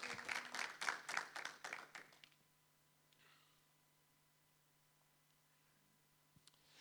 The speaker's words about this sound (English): maybe just let's give a great hand welcome this morning